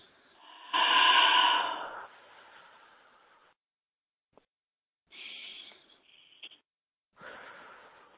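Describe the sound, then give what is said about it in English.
Deep breathing: a few slow, airy breaths, each a breathy rush of air with a softer trailing exhale, heard alone with no talk. “So I want you to take a deep breath.”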